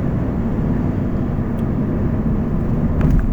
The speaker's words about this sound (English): I apologize for the noise, I'm in the car